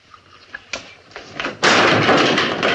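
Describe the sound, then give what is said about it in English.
A chair slung across a room ends in a loud, sustained crash and clatter, after a few faint taps and a sharper thump. “Brooding, he puts the saucer down, rises slowly to his feet, and suddenly slings his chair across the room.”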